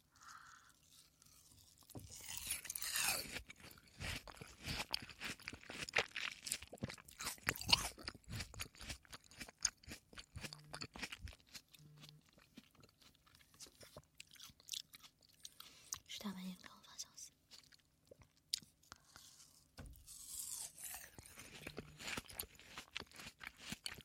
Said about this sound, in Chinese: 西瓜，吃两口。冰镇西瓜 YYDS。